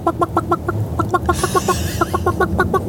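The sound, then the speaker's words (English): A voice imitates a chicken clucking: many short, pitched clucks in a quick, steady rhythm, loud and fairly even throughout, with no ordinary talk. “Do you want like a big chicken? Like how big? This big? Like a big chicken with feathers?”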